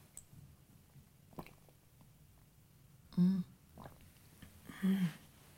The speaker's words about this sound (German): Wenn Sie nicht wollen, dann trinke ich jetzt eben die Milch alleine.